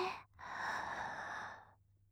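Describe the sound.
A slow, soft inhalation during a guided breathing exercise for falling asleep sounds as a faint, airy breath drawn in for over a second. It follows a brief pause, and no voice is heard.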